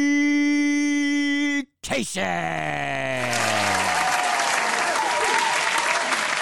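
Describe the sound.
An audience claps and cheers for a stand-up comedian who has just been introduced. A sustained musical tone cuts off, then loud applause follows while one drawn-out whoop falls in pitch.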